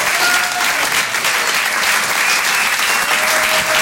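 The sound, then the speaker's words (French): Enthusiastic audience applause greeting comedian Guillaume Guisset at a comedy show, a loud, dense clatter of many hands sustained evenly throughout. “Faites un maximum de bruit, s'il vous plaît, pour Guillaume Guisset.”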